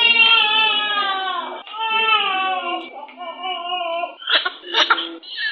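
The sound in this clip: A newborn cries in the neonatal care unit of a district hospital in Pangani, Tanga. Long, wavering, high wails come in a few drawn-out bursts, then turn into breathier, broken sobs near the end.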